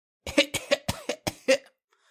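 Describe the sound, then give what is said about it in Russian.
An old man with a scratchy, weak voice coughing in a quick fit of several hoarse, rasping bursts. The coughs are fairly loud and stand alone, then stop abruptly. “Он закашлялся.”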